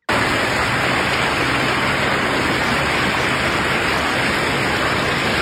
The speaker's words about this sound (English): that is, of course, the sound of water rushing through the streets of Minnetonka early this morning, over highways in that area. And wow, when I say rushing, that word does not even do it justice.